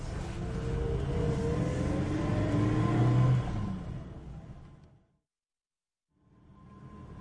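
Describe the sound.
A car drives away: a low engine rumble holds steady and strong, then fades out into silence before another low rumble comes back in.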